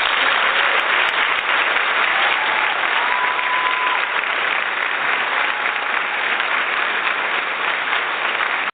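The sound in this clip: Live studio audience applauding: a loud, dense wash of clapping that stays steady and unbroken from start to finish.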